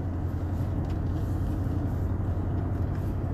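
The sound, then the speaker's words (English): A car driving on the road, with a steady low engine and road rumble that holds evenly throughout and no talk. “So here I am driving home after a long day at the office with my dirty laundry and my bank bag and a 12-pack of beer.”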